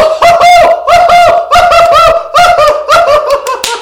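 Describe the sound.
A voice imitates a raven's call in a folk tale about a raven and a seagull: many rapid, pulsing, bird-like calls in loud rhythmic bursts, with no other sound.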